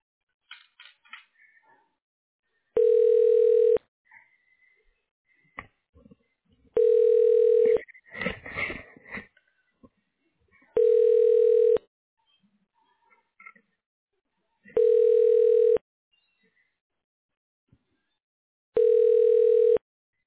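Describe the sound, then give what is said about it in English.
Telephone ringback tones play while a call is transferred to voicemail. Five steady tones, each about a second long, come at even intervals of roughly four seconds, with faint clicks and rustles between them. “I'll transfer you to his voicemail. Thank you. One moment.”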